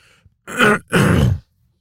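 A person clears their throat in two loud, rough, gravelly bursts with a short gap between them, alone with no talk around them.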